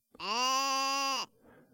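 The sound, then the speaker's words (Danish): A lone sheep gives one bleat, about a second long and clear, a loud nasal cry held at a steady pitch that cuts off abruptly, leaving faint background afterward. “Men fåret siger bare.”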